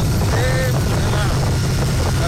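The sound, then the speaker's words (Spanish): Rider's helmet-mounted recording on a motorcycle, visor down: heavy, muffled wind buffeting and engine rumble form a loud, constant roar throughout. “Se preguntarán por qué se escucha así. Él va en moto, va en casco, va con... con su visera y tal, y por eso se escucha de esta forma.”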